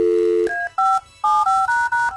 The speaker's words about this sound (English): All right, this was not my idea, but we're calling the boss.